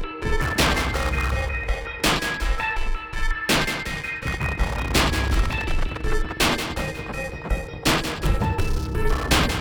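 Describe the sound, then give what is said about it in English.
A bass drop sound effect of heavy, booming low-end hits with crashing, explosion-like impacts. Many loud blasts recur throughout over sustained tonal music, with no speech. “Bass drop, man.”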